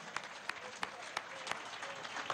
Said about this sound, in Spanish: Un aplauso, una ovación para esta juventud que hace la cultura.